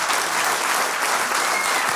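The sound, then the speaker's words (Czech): Applause from the audience at a Czech radio quiz event, a dense and steady wash of many hands clapping that holds at an even, loud level for about two seconds with no talk over it. “Mám z vás radost, potlesk pro vás.”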